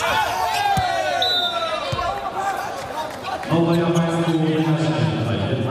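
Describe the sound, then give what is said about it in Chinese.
A table tennis serve during a match: a couple of sharp ball ticks on the table, with a commentator talking and crowd noise underneath. “李永贞的发球”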